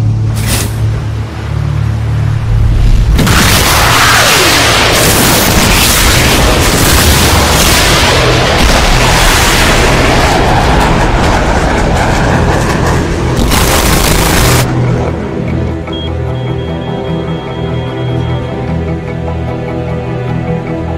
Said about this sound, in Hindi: ठीक है, तुम मिसाइल फायर करो। फायर।